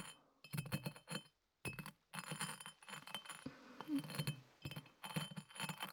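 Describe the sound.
Cornflakes being crushed and ground make faint, dry crackling crunches in many irregular bursts, with brief pauses between the grinding strokes and a light clinking texture.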